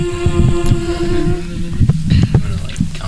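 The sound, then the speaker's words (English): A tone generator plays a steady electronic C flat note, a pure held tone with faint overtones that lasts about a second and a half before fading into low rumbling noise. “I'm going to pull out a tone generator. That's probably a good idea. That's a good idea. You don't want us to start. I think I can give you a C flat.”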